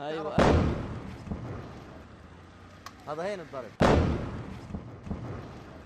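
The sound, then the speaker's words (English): Two heavy explosions from airstrikes on a Gaza city thump and roll out with long decaying rumbles, a voice briefly heard between them. “while Israeli airstrikes are ongoing”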